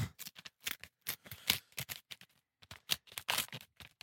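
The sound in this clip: An envelope is opened with many short, crisp bursts of crinkling and tearing paper in an irregular rhythm, with no voices heard.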